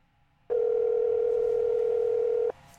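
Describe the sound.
A phone call ringing out, heard as a single steady electronic ringback tone that holds evenly for about two seconds and then cuts off abruptly, with no voices.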